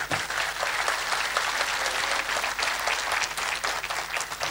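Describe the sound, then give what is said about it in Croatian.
At the Ilidža festival, an audience applauds the Radio-Television of Bosnia and Herzegovina music production orchestra with thick, sustained clapping from many hands at a constant, full loudness. “Sve večerašnje kompozicije izvodi Orkestar muzičke produkcije Radiotelevizije Bosne i Hercegovine. Molimo vas da ih pozdravimo velikim aplauzom.”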